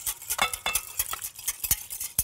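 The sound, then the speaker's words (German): A spoon stirs a yeast dough mixture with warm milk in a bowl, making many quick scraping strokes and light clinks in a steady, uneven rhythm at low volume. “Ich rühre das noch mal schnell.”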